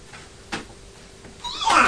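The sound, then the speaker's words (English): A cat gives a single short meow near the end, after a quiet stretch with faint background noise. “He had a meow, he had a cat.”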